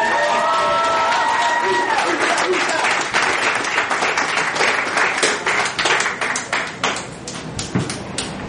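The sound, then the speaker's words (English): Audience cheering and applause for a comedian being brought to the stage: dense, loud clapping with whoops and shouts at the start, thinning into scattered individual claps toward the end. “Make some noise for Renato, ladies and gentlemen!”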